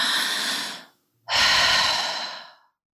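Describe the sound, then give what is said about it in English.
A woman takes slow, deep breaths to calm herself. Two long, airy breath sounds are separated by a brief silence, and each one fades out gradually. “She closed her eyes and took 10 deep breaths.”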